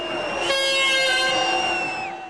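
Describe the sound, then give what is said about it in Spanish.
A bright, harmonic horn toot comes from a vendor in the stands of a crowded stadium. It is loud, held steady for about a second and a half, then trails off. “Toca una de sus bocinas para llamar su atención, pero él no se percata, así que vuelve a tocar.”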